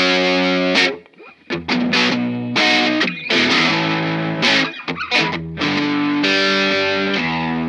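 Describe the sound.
Loud distorted electric guitar from a Gibson Lzzy Hale signature Explorerbird, an Explorer body with a Firebird headstock. Thick sustained chords ring out, broken by a few short gaps and choppy stabbed phrases.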